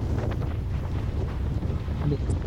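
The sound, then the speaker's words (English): Strong wind roaring and buffeting the microphone outdoors during a wildfire, a steady, loud low rumble that runs unbroken through the whole clip. “Look at that, dude. That's the wind.”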